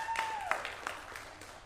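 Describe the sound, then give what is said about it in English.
Faint audience applause after a jazz big band chart: a thin wash of scattered claps with a few sharper hand strikes, fairly steady and low in level throughout. “So give a round of applause for that one.”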